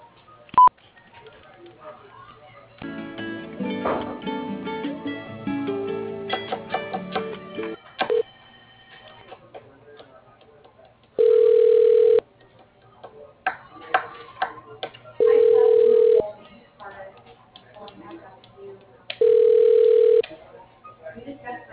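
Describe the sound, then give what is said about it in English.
A telephone call is transferred: a quick run of clicks and dialing tones, then three evenly spaced ringback tones with quiet gaps between them. “I'm going to go ahead and connect you with Kevin”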